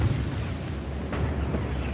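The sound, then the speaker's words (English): A bomb explosion sounds as a deep, dense roar that fills the whole moment with broad, rumbling noise and holds at a steady loudness throughout. “It's a bomb.”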